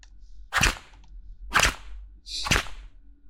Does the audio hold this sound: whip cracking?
yes

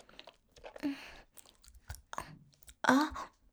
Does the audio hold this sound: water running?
no

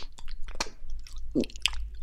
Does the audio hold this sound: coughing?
no

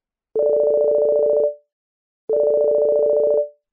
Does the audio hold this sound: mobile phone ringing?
yes

